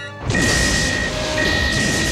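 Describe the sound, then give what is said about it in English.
An explosion aboard a starship bursts in suddenly and loudly, then holds as a sustained, dense roaring rumble with a thin, steady electronic tone running through it. “There is an explosion just behind Geordi.”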